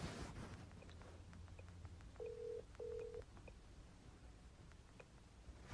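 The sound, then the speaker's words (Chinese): A phone rings out for a voice call: two short, steady electronic tones in quick succession, each under half a second, heard faintly over a constant background hiss. “依家个电话就响紧啦”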